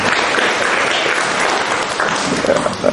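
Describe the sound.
A church audience applauding the men in attendance, giving a loud, dense burst of clapping throughout with voices mixed in.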